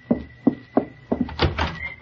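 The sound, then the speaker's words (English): Knocking on a door: a series of sharp, distinct raps in a slow, slightly uneven rhythm, followed by a rougher, longer burst of door noise, with no voices. “Someone at the door.”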